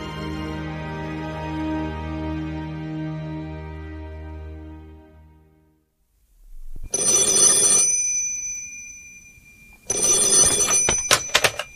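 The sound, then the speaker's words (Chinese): A telephone bell rings in a military commander's office in two long, loud bursts. Each burst has a harsh metallic jangle, and the rings come after a stretch of instrumental music that fades to silence. “南京来电”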